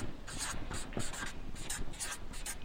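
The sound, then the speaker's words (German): Pen or marker strokes scratch across a board or paper in many short, rasping bursts with an uneven rhythm. The sound is faint and close. “Ich schreibe es einfach mal jetzt nach unten drunter.”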